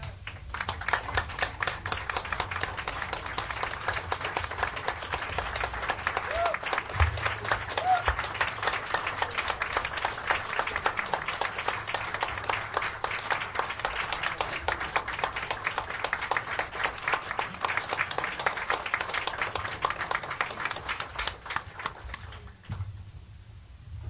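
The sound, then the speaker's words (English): A standing ovation of welcome for two guests at an evening gathering, with dense, continuous clapping from a large audience that stays loud and even throughout and tapers off briefly at the very end. “Okay, and now the two people who have brought us all together here tonight. Would you please stand to give them an ovation of welcome?”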